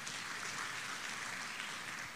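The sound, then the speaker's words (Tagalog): A church audience applauds during an Easter sermon. The clapping is faint and steady and blends into a continuous wash from start to end. “Palakpakan natin ang Panginoon minsan pa.”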